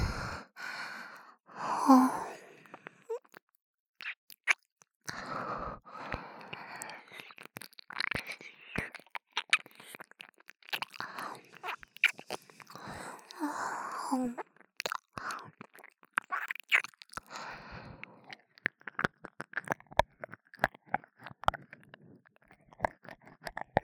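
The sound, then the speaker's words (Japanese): Wet ASMR ear-licking and mouth sounds: many soft clicks, smacks and slurps mixed with breathy sighs, with no speech. “お耳もなめなめする。”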